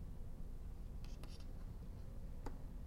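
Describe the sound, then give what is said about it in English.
Faint scratching strokes of a lens ray diagram being drawn, a few short marks near the middle and one more near the end, over a steady background hiss. “OK, so let me draw some principal rays. I can draw the ray that goes through the center of the lens.”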